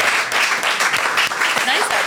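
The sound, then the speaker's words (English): Audience applause for two guests after a show segment: a dense, continuous patter of clapping that holds steady throughout, with voices calling out over it. “A round of applause, Yay. Please, for Chris and Rosie Ramsey.”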